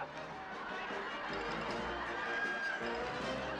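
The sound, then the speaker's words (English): Kids running away from umpires inside the Astrodome in a film scene: a steady, loud wash of crowd noise with quick running footsteps mixed in, continuous throughout. “What you're hearing is a scene from the Bad News Bears, part two. Kids running away from the umpires inside the Astrodome.”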